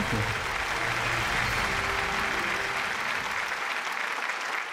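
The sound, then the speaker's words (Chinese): Audience applause welcomes a professor to the stage, with dense, steady clapping from many hands that carries on for several seconds and thins slightly at the end. “好，让我们用热烈的掌声有请张永乐教授。”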